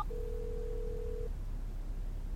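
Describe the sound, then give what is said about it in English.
A single steady electronic tone from an iPhone placing a phone call, holding an even pitch for about a second before stopping, faint and alone over a low background hum. “I'll phone Mike next door. Oh, my iPhone is on the table over there.”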